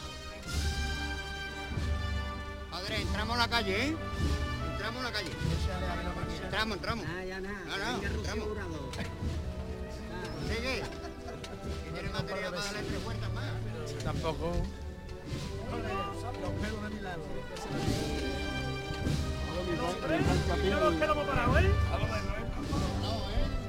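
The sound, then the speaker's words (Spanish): Band music from the Holy Week procession of the Virgen de la Estrella entering Triana plays as a continuous, steady stream of sustained tones, with a voice talking over it. “Fíjense si están cerca de ustedes conmigo, escuchando cómo pasa la Virgen de la Estrella, cómo entra en Triana, en su barrio.”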